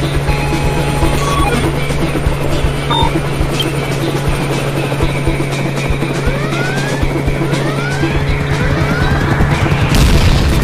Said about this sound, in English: I don't know if I can get us away from that helicopter.